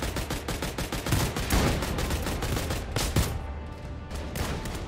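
Rapid gunfire in a Minecraft game: loud, dense bursts of shots crack in quick succession, nearly continuous, then thin out toward the end.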